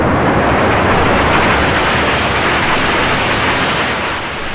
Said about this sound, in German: Sie sind weg. Das Raumschiff hat unsere Welt verlassen.